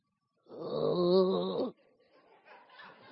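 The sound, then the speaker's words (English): An audience member at a healing and miracle service gives one drawn-out, throaty groaning grunt that swells and then cuts off. Faint low murmuring follows. “I heard somebody grunt and groan.”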